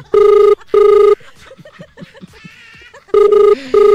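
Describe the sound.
Telephone ringing while placing a call to a doctor: two long, loud, steady electronic rings, then a gap with faint voice-like sounds, then two more rings.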